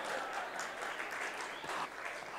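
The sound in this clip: Audience applause at a talk in Mount Abu: a dense, steady wash of many hands clapping at moderate volume through the whole stretch, with no voice standing out above it.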